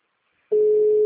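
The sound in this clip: Telephone ringing tone on an unanswered call to a distributor: after half a second of silence, one steady mid-pitched tone starts and holds unbroken to the end.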